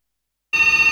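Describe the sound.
A telephone rings for an incoming caller, its steady, bright bell tone bursting in abruptly after silence and holding loud to the end.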